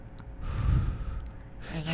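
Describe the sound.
A person imitates a sleeper whose breathing stops and who then wakes with a gasp: breathy, noisy bursts of air, loud at first, easing off briefly, then rising again toward the end, with no words spoken.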